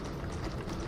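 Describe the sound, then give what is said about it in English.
A fleet of Boston Dynamics robot dogs walks, making a faint, dense, continuous patter of many overlapping footfalls with no clear single steps. “Boston Dynamics has developed robot dogs. This is a fleet of robot dogs.”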